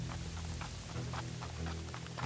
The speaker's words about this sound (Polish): Za Mogilnem w gęstym deszczu wóz staje.